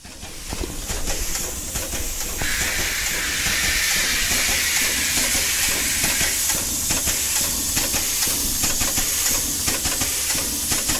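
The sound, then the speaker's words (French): A train running along a railway line makes a continuous loud rumble with a broad hiss and fine rattling clatter, holding at an even level throughout without voices. “Voie ferroviaire.”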